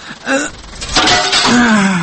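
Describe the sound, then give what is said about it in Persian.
Window glass being smashed in a drama scene: one short, bright crash of breaking glass, with people talking just before and after it. “تو باش که من امی شیشه رو میده کنم اگه بیدار شوه.”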